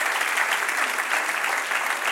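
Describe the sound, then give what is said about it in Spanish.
Congregation applauding during a church sermon: steady, dense clapping that fills the whole stretch at an even loudness, with no break or pause. “Dale un aplauso al que reina.”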